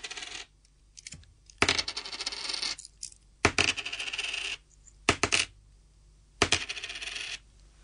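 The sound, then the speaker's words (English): Four coins dropped one at a time, each landing with a bright metallic clink and rattle in separate bursts divided by quiet gaps. “Now, did you hear how many coins there was? Yeah, there was 4.”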